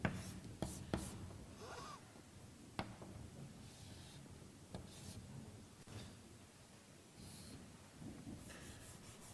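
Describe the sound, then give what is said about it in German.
Pen scratching on paper or a board as a chemical structure is drawn by hand in an organic chemistry lecture on anti-Markovnikov reactions. Faint, dry strokes and scrapes with a few sharper taps, alone without talk. “Ich zeichne es jetzt ein bisschen anders auf.”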